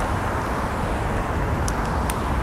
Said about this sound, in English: I can simply wait for the surge of traffic on my left and cross,